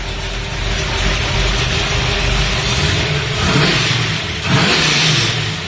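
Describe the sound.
A freshly built 600-horsepower car engine revs lightly under gentle throttle. It gives a loud, steady, gritty rumble with two short swells of revving near the end.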